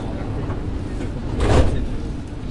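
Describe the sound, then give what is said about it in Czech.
Sliding doors of a public transport vehicle closing at a station after the closing announcement: a brief, soft whooshing swell of the door movement rising out of a steady, low rumble of the vehicle, with no voices. “Ukončete prosím výstup a nástup, dveře se zavírají.”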